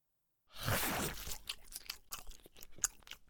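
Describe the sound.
Crunchy chewing of a mushroom side dish served with grilled meat: a dense burst of crunching and tearing, then many quieter, irregular bites and chews with no talk.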